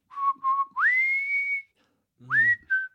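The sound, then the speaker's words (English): Whistling of a cowboy-style melody: a few short steady notes, then long clear tones that swoop upward and hold, fairly loud and alone with no talk. “suddenly I start in with that whistle, like,”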